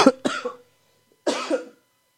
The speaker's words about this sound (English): I just had a little something caught in my throat.